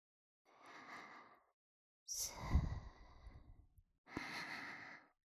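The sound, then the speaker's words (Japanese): Deep, relaxed breathing from a person lying on their back: a soft inhale, a long sighing exhale, then another inhale. Three faint, slow breaths with no talking. “仰向けの状態で、体の力をだらーんと抜いて、深呼吸。”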